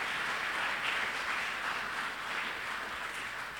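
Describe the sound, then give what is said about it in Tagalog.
Applause from a church audience, a steady, continuous wash of clapping hands at moderate loudness that holds for the whole stretch with small swells and no voices over it. “Sige, palakpakan natin ng Panginoon, mga kapatid.”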